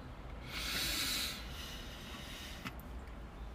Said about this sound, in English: take a deep breath